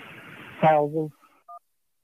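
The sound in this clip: Short two-tone telephone beep on a sports call-in show's phone line as a caller is connected. It follows a burst of talk and sounds once, brief and clear, then silence.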